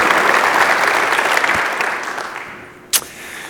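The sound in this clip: Audience applause in a church welcoming a speaker: sustained clapping that slowly fades, then a single sharp knock near the end.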